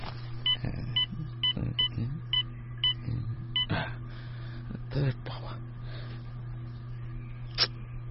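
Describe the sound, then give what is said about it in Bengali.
A mobile phone's keypad sounds as a call is dialled: a quick series of short, evenly spaced beeping tones over a low steady hum, followed by a few soft clicks and rustles. “আপনার মোবাইলটা থেকে একটা phone করবো?”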